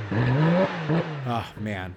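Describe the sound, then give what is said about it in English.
A car engine revs hard, its pitch climbing sharply on the first throttle blip and then dropping, followed by several shorter, punchy revs that rise and fall in a loud, raspy burst. “That one's special. I really like that sound. The thing that I like most about it is that it's different than the Pista's V8, the McLaren's V12.”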